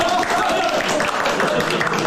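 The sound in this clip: Steady applause from villagers in Majiapu welcoming the visiting village secretary from Shangheyu on a snowy day, a continuous dense patter with voices talking over it.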